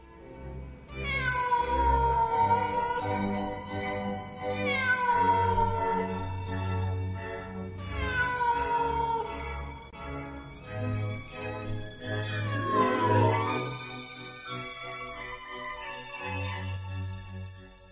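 A black cat on a wall wails in long, mournful meows, one after another. Each cry starts high and slides down in pitch, loud and drawn out.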